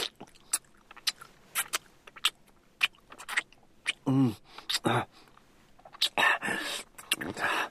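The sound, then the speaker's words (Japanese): Wet slurping and licking mouth sounds come in many short, irregular smacks and clicks, with breathy whispered voice sounds between the bursts. “こうやってジュルジュル音立てて舐めて”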